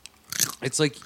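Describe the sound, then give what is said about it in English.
Crunching and chewing of chips right up against a microphone, with a few sharp bites and a short stretch of voice mixed in. “I'm going to eat chips and chew into the mic.”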